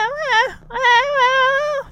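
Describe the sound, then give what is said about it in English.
A baby whimpering in a playpen, two drawn-out, wavering, sing-song cries separated by a brief pause, fairly loud, over a faint steady low hum. “we hear baby Michelle in her crib going, or in her playpen going,”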